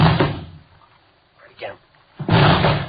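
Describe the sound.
Police officers force open a locked door, making two heavy crashing impacts, one at the start and one near the end. A brief voice is heard in the quieter stretch between them.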